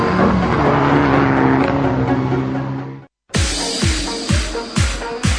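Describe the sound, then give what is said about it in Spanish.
Rally car engine at a rally event, a sustained loud roar for a few seconds, then after a brief cut a series of sharp, punchy revs and gear changes. “Vuelve el espectáculo del motor con el 21º Rally Sierra de Cádiz.”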